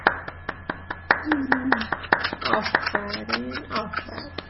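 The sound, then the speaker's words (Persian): Children clapping to cheer another child, a fast, steady run of sharp claps with young voices rising over the middle and end. “خب بچه ها روزینا رو تشویق کنید”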